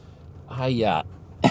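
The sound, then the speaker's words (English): A man with a cold coughs and clears his throat while driving home. A raspy, drawn-out throat-clearing sound is followed by a brief, sharp cough burst, both fairly faint. “I apologize for coughing in advance and clearing my throat.”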